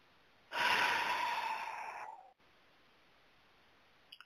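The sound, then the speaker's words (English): One deep breath, a loud, breathy rush of air lasting about a second and a half that tapers off and cuts to near silence. “Go ahead and take one more deep breath.”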